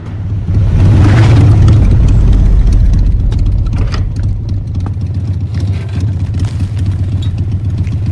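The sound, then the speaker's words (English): Motorcycle engines rumble as four bikers ride through a deserted town and split up at a crossroads, a loud, continuous low droning roar with a rough, clattering texture throughout. “traffic lights blazing, the four bikers split up at crossroads in the deserted town.”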